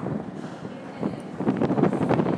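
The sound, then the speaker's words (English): Wind blows across the microphone outdoors as people search for the northbound way near some steps: a steady rushing, buffeting noise that grows louder and gustier after about a second and stays strong to the end. “Very breezy.”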